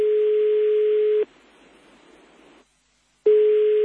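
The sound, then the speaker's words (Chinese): An incoming-call tone on a phone: a steady, mid-pitched electronic beep that cuts off, a short stretch of faint hiss and then silence, before the same beep starts again. “sorry， 等先，有电话入单先”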